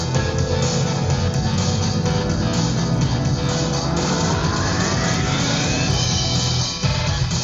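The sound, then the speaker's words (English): Distorted electric guitars playing in a loud, dense, sustained roar that resembles a revving engine, with whining tones sliding upward partway through and a brief dip near the end. “That's a guitar going. I believe those are all guitars.”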